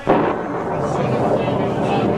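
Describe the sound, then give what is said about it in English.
Thunder from lightning bolts striking near a cross in a dramatized crucifixion scene: a loud, dense rumble that begins abruptly and holds steady with little decay. “The lightning seems to be hurled directly at the cross.”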